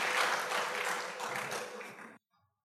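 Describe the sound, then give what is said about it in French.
An audience applauds after a scripture reading at a French-language church service. The broad clapping noise slowly fades over about two seconds, then stops abruptly and leaves near silence. “Nous pouvons acclamer l'écriture de la parole de Dieu.”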